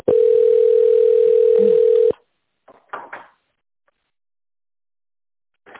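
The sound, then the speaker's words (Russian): A telephone ringback tone plays while a call is transferred: one loud, steady mid-pitched tone lasting about two seconds, then a few faint short clicks and noises with quiet gaps. “Выполняется перевод звонка, ожидайте.”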